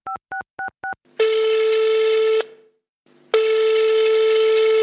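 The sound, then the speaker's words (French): Four short two-tone telephone keypad beeps as a number is dialed, followed by two long steady ringback tones separated by a pause. “Alors elle va sur les pages jaunes, elle trouve le numéro, elle appelle...”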